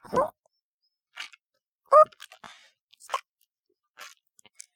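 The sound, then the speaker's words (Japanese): Wet chewing and gulping from a cat eating fresh shark meat: a few short, irregular bursts of crunching and swallowing separated by quiet gaps. “新鮮なサメ。喉の奥に流し込まれてゴクゴク。うちの猫、大喜び。”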